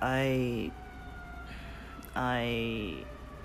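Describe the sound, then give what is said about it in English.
An emergency vehicle siren wails outside in two loud bursts, separated by a quieter stretch of low background noise. The pitch of the first burst drops as it ends, and the second rises before holding steady. “every time I record you guys, almost every single time we're gonna be dealing with these sirens. That's life these days.”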